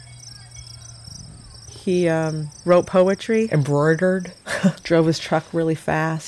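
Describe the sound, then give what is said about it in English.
Outdoor ambience on puppet circus grounds, where steady, high-pitched cricket chirping runs throughout beneath a person talking. “This is the sound of the Bread and Puppet Circus.”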